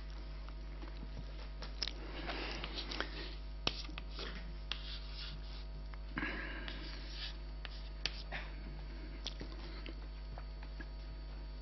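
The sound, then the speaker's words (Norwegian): Pen scratching across paper while someone draws, a steady run of many irregular scraping strokes with occasional sharper taps, fairly quiet and without talk. “Ja, man tegner først. Kan telle mens du tegner.”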